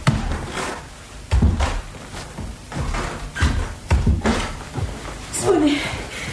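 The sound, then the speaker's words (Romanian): Knocking on a door comes as a few irregular dull thumps, with short gaps between them, over continuous background sound. “Parcă bate. Deschis numai dacă e Lady Teasel.”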